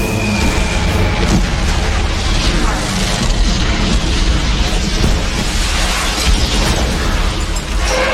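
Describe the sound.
Bombs being dropped and exploding, heard as a loud, dense, unbroken roar of blasts and crackling debris that stays at full strength throughout, with no clear gaps between individual booms.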